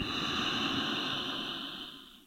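A slow inhaled breath during a guided breathing and prayer meditation, heard as a single soft, airy hiss that holds steady and then fades away near the end, with no talking.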